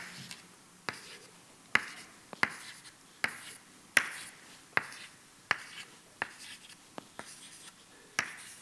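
Drawing a graph of cells by hand, heard as quiet, sharp taps, each followed by a brief scratchy stroke. Many of them recur at a fairly steady pace, about one per second, over a faint background.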